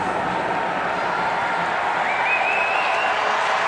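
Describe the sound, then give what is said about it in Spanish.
A football stadium crowd cheers and applauds during a Columbus versus New England soccer match, a constant roar of massed noise at steady loudness. “Acá viene el público apoyando.”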